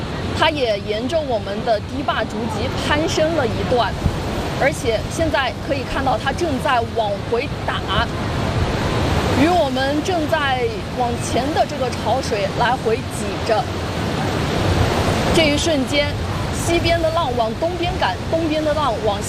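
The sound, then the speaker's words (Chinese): Returning tidal bore waves churn and crash against a 660-metre river dam, stirring up riverbed silt in a dense, continuous roar of rushing water beneath ongoing talk. “您看，今天潮水明显比昨天更加猛烈，这也是我们回头潮的一个壮观的景象。也可以看到，此时此刻它正在翻卷着江底下的泥沙来回翻滚着。”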